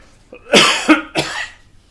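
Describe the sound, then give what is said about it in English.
A few hoarse coughs come in quick succession from a person who needs to cough. They are loud and short, with a brief quiet gap between bursts and no speech. “I have to cough.”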